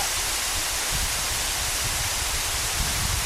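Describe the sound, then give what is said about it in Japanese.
A strong, powerful river rushes past in a continuous, loud roar of churning water, broad and even with no pauses or individual splashes standing out. “川がすごく綺麗で強い流れ、力強い感じで、すごく綺麗”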